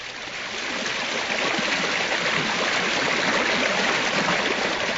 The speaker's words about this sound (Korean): 물이 작게 흐르는 개울.